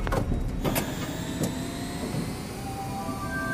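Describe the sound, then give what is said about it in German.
An elevator ride down to the ground floor: a steady motor hum with a few clicks early on and faint whining tones drifting through. “Hier vorne mit dem Aufzug und dann durch die Sicherheitsschleuse.”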